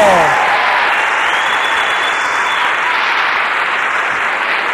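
Applause from a group, a dense, even wash of clapping that stays loud and steady from start to finish without pausing.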